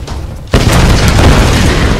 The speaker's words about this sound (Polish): Czy zawsze wszystko musi wybuchać?